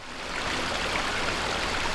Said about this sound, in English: A stream feeds the man-made pond at Skyview